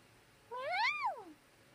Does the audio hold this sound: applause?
no